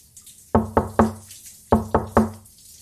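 Knocking on a closed door: two quick bursts of three sharp, loud raps, with a short pause between the groups and no talk.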